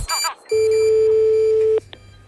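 Telephone tones as a radio show dials a listener: a couple of short beeps, then one long steady tone lasting over a second, followed by a brief closing beep.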